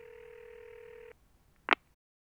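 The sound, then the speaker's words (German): Telephone dial tone for a call to a doctor's practice: a steady, even tone runs for about a second and stops. After a brief quiet, a single short click follows. “Jetzt muss ich bei diesem Dr. Zechmeister anrufen. Hoffentlich ist jetzt jemand da.”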